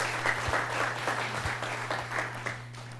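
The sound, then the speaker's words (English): Applause from an audience welcoming a speaker to the front: a steady, dense patter of clapping that holds at an even level throughout, with no voices over it. “So everyone give a warm welcome, please, for Kaylee.”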